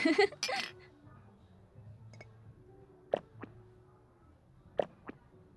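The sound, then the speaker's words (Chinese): Glasses clink in a toast with screwdriver cocktails, a few bright, sharp chinks coming in two quick pairs over a quiet background, after a brief burst of voice at the start. “我觉得这家店的螺丝起子蛮好喝的，干杯！”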